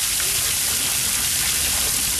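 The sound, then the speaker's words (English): Steady rushing water from a big public fountain on a quiet square on Munich's east side, a continuous loud splashing wash that runs without breaks. “On a quiet public square on Munich's east side, people are sitting on park benches around a big public fountain, still running despite the water restrictions.”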